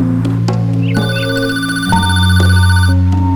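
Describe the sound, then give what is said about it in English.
Telephone ringing in a house, a loud electronic ringtone of steady layered tones that shifts pitch partway through and repeats without pause, no voices. “At Olivia's house, the telephone rings.”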